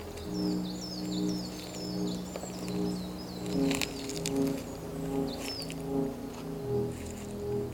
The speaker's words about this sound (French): Et le silence, à peine voilé par les doux gazouillis des oiseaux.